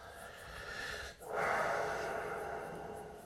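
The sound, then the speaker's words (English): A deep breath, soft and airy, with a brief dip in the middle and then a fuller, steadier rush of air that slowly fades. “just take a moment. Take a deep breath.”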